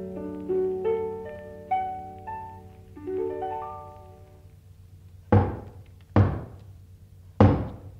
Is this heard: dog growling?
no